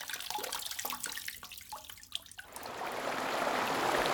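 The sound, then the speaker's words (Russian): Flowing river water, starting with faint scattered drips and trickles that give way to a steady, wide rushing flow which holds on to the end, quiet overall. “Слышите? Так звучит река.”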